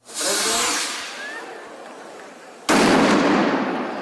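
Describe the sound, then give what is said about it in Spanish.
A chupinazo festival rocket opening the fiestas in Tomelloso, Ciudad Real, where a rocket got caught on a balcony: a sharp loud burst with crackling decay and a brief whistle, then a second, louder blast that rumbles on. “Y en Tomelloso, Ciudad Real, el chupinazo de inicio de sus fiestas que estamos escuchando a partir de este momento ha causado problemas.”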